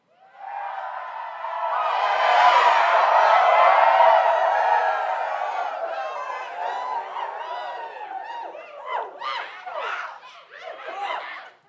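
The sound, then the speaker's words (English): A studio audience cheers and chuckles. The crowd noise swells to an early peak, then thins into scattered laughs and whoops. “Our lovely studio audience is always happy to see us.”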